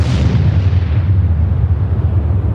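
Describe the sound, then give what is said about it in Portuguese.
A bomb explosion sound effect: a loud, dense roar heavy in the low end that rumbles on steadily without a sharp onset. “Polêmica. Coloca a bomba aí, editor.”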